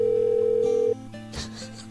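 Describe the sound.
A telephone dial tone sounds while a call is placed to a store: a steady, loud, unbroken tone that cuts off abruptly after about a second. A quieter line hiss follows, with a brief click.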